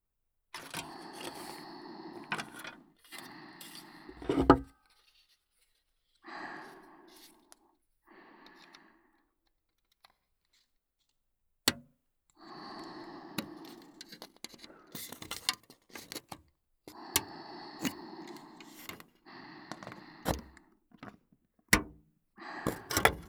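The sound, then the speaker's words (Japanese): Nippers snipping close to the ear: a few sharp, crisp clicks stand out among quiet bursts of rustling and scraping handling noise, separated by short silences. “こちらのお耳のそばでニッパーを使いながら切っていきますね”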